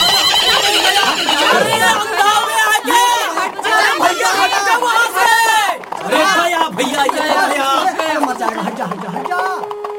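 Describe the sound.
A horse neighs and whinnies repeatedly while out of control in a street, its loud, wavering cries mixed with agitated shouting voices throughout.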